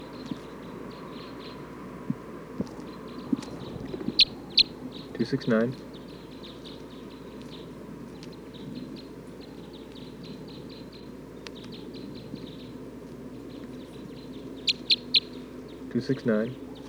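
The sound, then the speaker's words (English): Bird calls: a few short, high chirps in two brief bursts, separated by a long quiet stretch over a steady low hum. “Recording bird 269.”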